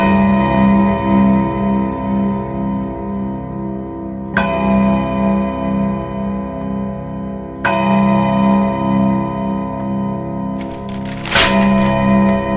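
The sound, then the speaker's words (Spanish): An English mantel clock strikes four loud chimes, spaced a few seconds apart, each bright metallic strike ringing out in a long, slowly fading tone. “El reloj de chimenea inglés hace oír cuatro campanadas inglesas.”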